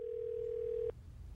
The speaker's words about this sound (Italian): Tim Geithner alza il telefono e chiama Washington